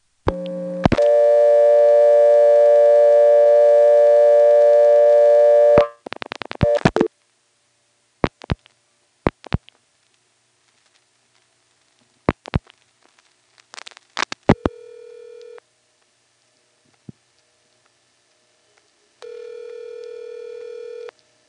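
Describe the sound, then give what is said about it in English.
A telephone dial tone holds steady for about five seconds before giving way to scattered clicks and short dialing beeps as a repair service code is tried, then brief line tones separated by silence. “It doesn't, and so I dial a third one, and it goes to the recording.”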